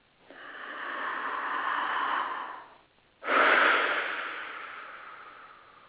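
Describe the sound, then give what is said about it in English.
A deep breath: a slow, airy inhale lasting about two seconds, a brief pause, then a long, forceful exhale that starts strong and gradually trails off, with no talking. “let's take this deep breath and breathe into making that a reality.”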